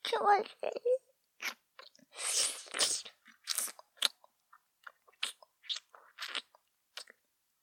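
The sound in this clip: Crunchy chewing and biting of food during a meal: many short, sharp crunches and longer munching bursts with quiet gaps between them, after a brief voice at the start.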